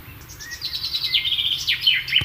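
A bird calls outdoors in cool, nearly humid air: a lively run of high chirps and whistled tweets, some notes sweeping up and down, over a low, steady background rumble.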